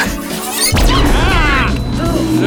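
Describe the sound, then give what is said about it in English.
A flash grenade goes off with one sudden, loud bang about three-quarters of a second in. Dense, sustained noise continues at high level to the end, following a quieter, low stretch before the blast. “A flash grenade? No, come on, don't just... Find cover, bring him to me!”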